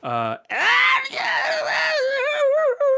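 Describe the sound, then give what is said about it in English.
A human voice imitates squealing off in the woods during a fantasy tabletop game. A short shrill burst comes first, then a long, strained squeal that drops lower and trembles toward the end. “And you can hear some squealing off in the woods.”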